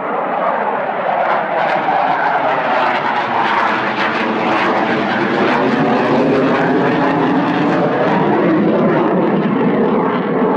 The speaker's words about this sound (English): One of the solo aircraft just went right over our heads here. Two of them.